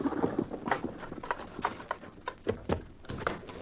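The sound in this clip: Horse hooves clip-clop in a quick, steady run of many sharp knocks as a horse pulls a rig, the hoofbeats crisp and fairly loud with no voices over them.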